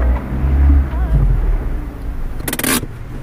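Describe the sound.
Car engine rumbling as the vehicle pulls over to the side of the road, a loud, low, steady drone throughout with a short burst of hiss near the end.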